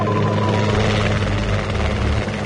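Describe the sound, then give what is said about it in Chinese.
A police helicopter hovers above a detention center, its rotors and engine making a loud, steady, unbroken roar that fills the whole stretch without pause. “十分钟后，警方的直升机在看守所的上空悬停，”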